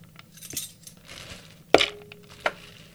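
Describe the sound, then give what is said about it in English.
Three tablespoons of pine nuts tip into a food processor bowl that already holds garlic cloves, making a few faint clinks and rattles, with two sharper hard ticks standing out. “And now I'm going to add the pine nuts, 3 tablespoons of pine nuts.”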